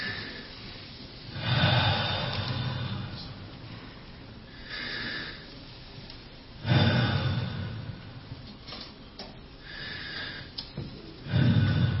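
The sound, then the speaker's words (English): A group taking deep breaths in and out together at a prayer night. Slow, airy inhales and exhales swell and fade in a few long waves, with no talk. “just 3 deep breaths, okay? Deep breaths. Ready? You're going to go in and out.”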